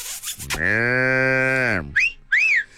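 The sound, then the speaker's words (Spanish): A calf's moo played as a sound effect: one long, steady, loud bellow with a full, rich tone, ending in a slight downward slide, then two brief, higher whistling chirps. “Te mando, mira, un becerro, ahí te va. Becerro, ¿dónde andas?”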